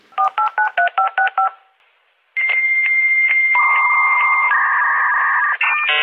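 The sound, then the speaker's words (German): Early-1980s computer modem turning data into tones: a rapid series of beeping dial tones, a short pause, then steady high electronic tones that shift and overlap as a lower tone joins, ending in a few brief switching bursts. “Ein neuer Sound, Anfang der 80er. Rechner setzen Daten in Töne um, verbinden plötzlich Kontinente, Konzerne und Computerkits.”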